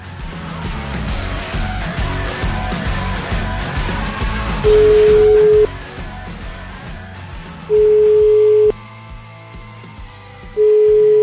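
Ringback tones sound as a telephone call is placed: three long, steady, low tones at even intervals, the last cut short, over a loud, dense, continuous background.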